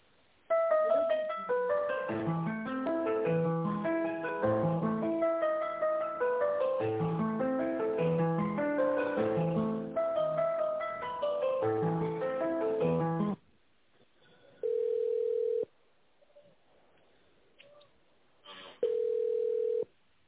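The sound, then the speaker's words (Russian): A telephone call on hold while being transferred: a bright, busy melodic hold tune plays steadily for about thirteen seconds, then cuts off, leaving a quiet line broken by two steady beep tones. “Сейчас я вас переключу с девушкой переговорить.”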